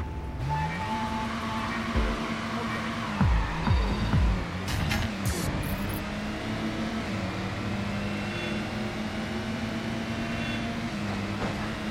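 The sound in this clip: The engine of a car in a racing video game drones steadily. The quiet hum shifts in pitch as the car drives, and a few brief clattering knocks come midway, with no talk.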